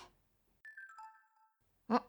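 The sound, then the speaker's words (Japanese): A mobile phone chimes for an incoming message with a short run of bright tones stepping down in pitch, then a brief voice sound follows. “ん、なんだろう、携帯？あの子からメッセージだ。”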